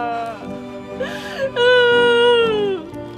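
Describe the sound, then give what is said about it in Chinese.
A person cries in a wavering, high-pitched wail that sobs up and down, with a breathy gasp in the middle before a louder, longer cry that slowly falls and fades. “你别哭啊！我看你哭，我紧张。”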